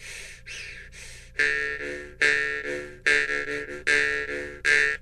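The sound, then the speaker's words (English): A person makes a vocal sound effect by breathing in and out loudly: a long, steady series of hoarse, partly voiced breaths in an even rhythm, each one loud and clear, with no talk. “So the next step is to breathe in and out kind of loud, which gives it some volume and some rhythm.”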